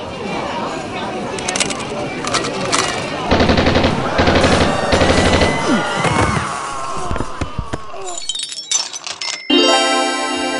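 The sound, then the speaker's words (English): Machine-gun fire crackles in loud, jagged bursts mixed with shouting voices, then ends in a fast, even rattle of shots. “The powwow machine gun is perfect for all types of situations.”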